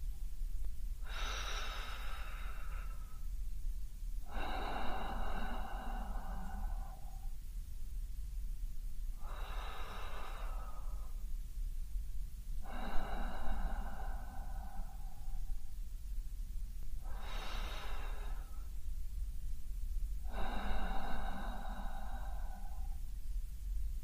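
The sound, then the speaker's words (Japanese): Slow breathing in and out during a guided calming exercise: six long, airy breath sounds in an even, unhurried rhythm, each about two seconds, over a low steady hum, with no talking. “吐いて僕に合わせて呼吸を続けてください”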